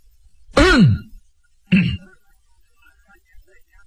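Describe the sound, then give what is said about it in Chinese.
A man deliberately clears his throat in two rough, harsh bursts, the first longer and louder, the second shorter, separated by a brief pause with near silence around them. “故意的把这嗓子清了清”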